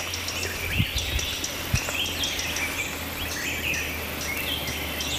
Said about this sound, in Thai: น้าๆชวนฟังเสียงป่าที่สองคนบอกว่าทำให้สบายใจที่สุด ลองเงียบฟังเสียงนกพอล